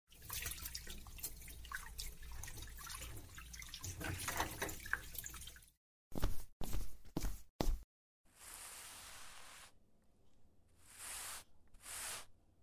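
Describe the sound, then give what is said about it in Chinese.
Running tap water splashes into a sink as dishes are washed in a kitchen: first a continuous faint stream, then a few short, sharp bursts of water, and later a couple of hissing gushes separated by quiet gaps. “赶紧先把碗洗干净，然后把桌子擦了，把厨房啊好好收拾一下。”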